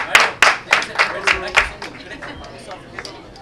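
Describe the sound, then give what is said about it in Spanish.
Audience applause at a live comedy gathering: a short burst of loud, rhythmic hand claps that thin out and fade over a few seconds, with crowd chatter mixed in. “Aplausos por la fe y la ciencia. Aplausos por Dios y Satanás.”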